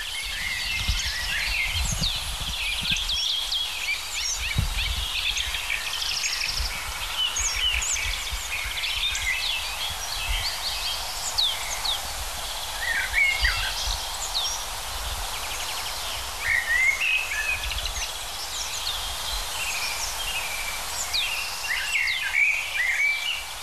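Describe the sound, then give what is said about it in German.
A male common blackbird singing in early spring, with faint scattered whistled phrases over a constant outdoor hiss and low rumble. “Natürlich eine der Hauptdarstellerinnen, die Amsel,”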